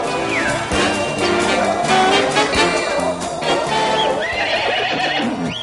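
A horse neighs in loud, wavering whinnies over the steady clip-clop of hooves, the sound continuous from start to end.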